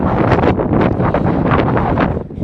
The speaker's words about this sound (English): it's really windy. It's really windy and cold.